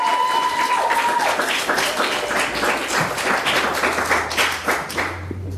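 Audience applause welcoming a performer on stage: a dense, steady stretch of many claps at even loudness, with no voices.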